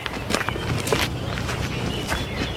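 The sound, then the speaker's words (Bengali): Footsteps of two men walking along a village path: many soft, uneven treads at a steady walking pace over a constant outdoor background. “Gobindapur গ্রাম, গায়ের পথ ধরে হাঁটছে ASI ধুরন্ধর Das ও সেপাই জগবন্ধু সেনাপতি।”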